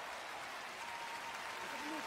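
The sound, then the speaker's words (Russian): Audience applause for Igor Krutoy and Dimash, a faint, steady wash of many hands clapping that holds an even level throughout. “Еще раз ваши бурные аплодисменты. Игорь Крутой и Димаш.”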